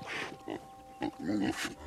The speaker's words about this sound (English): the loud lowing of the cattle and the soft cooing of the hogs